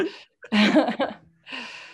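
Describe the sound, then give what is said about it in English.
Deep breaths exhaled during a relaxation breathing exercise: a few soft, breathy gusts of air, with a louder and longer exhale in the middle between quieter breaths. “Inhale, exhale, let it go.”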